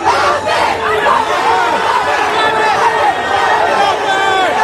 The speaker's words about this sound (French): Voilà pour le bel accueil pour les Bleus, qu'a apprécié d'ailleurs le milieu de terrain Adrien Rabiot. Un accueil très chaleureux, beaucoup de monde, encore plus qu'à Mars.